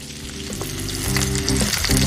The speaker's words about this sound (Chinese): 对，这叫翻锅。你先把它锅换一下，转弯，往前一提，这个勺子轻轻一推，往上一翻，伸出，加两勺伸出，两勺酱油。